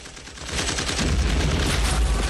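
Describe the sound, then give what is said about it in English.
A belt-fed machine gun fires from a machine gun nest in wartime dugouts: one loud, rapid, continuous burst of shots with a deep, pounding low end that swells over the first half second. “Willard stalks along the dugouts to a machine gun nest, where a young soldier feeds a belt of ammo into the gunner's weapon.”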